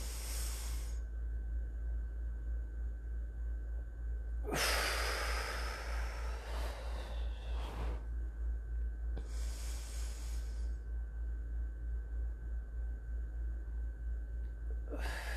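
Deep, slow breaths from a breathing exercise, heard as a few long, airy inhales and exhales with quiet pauses between them, over a steady low hum.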